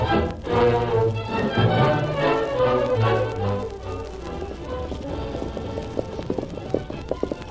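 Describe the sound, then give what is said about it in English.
Hoofbeats of several horses as a band of riders heads toward a cattle crossing: many quick clip-clop strikes in a brisk, steady rhythm, fairly loud throughout, with no talk. “Meantime, Cy Adams and his men were riding toward the place where Kinsey intended to drive his herd across.”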